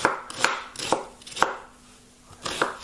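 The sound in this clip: A knife chops two sweet new onions on a board in sharp, crisp strokes, several loud hits at a fairly steady pace with lighter taps between and a brief pause before the last chops; no voices.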